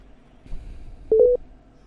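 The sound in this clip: Telephone tones as a call drops: three short, mid-pitched electronic beeps in quick succession, fairly loud against a quiet line.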